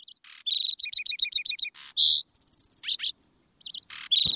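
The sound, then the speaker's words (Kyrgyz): A lark sings overhead in bright, high chirps and rapid trilled bursts, phrases broken by short pauses, clear and fairly loud with no other sounds around it. “булардын так үстүнөн газала чымчык торгой сайрап эмеспи?”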